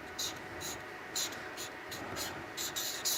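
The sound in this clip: Faint scratching of a pen that is running dry as it writes on paper. Several short, hissy strokes come in quick bursts with brief pauses between them, quiet and close.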